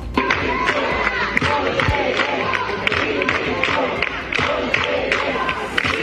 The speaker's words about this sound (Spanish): El otro sonido de la mañana es este que están escuchando, el de un grupo de docentes protestando durante el pleno que se celebraba ayer en las Corts Valencianas